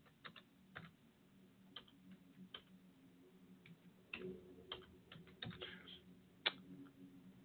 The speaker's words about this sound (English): Actually, I'm going to type this in here.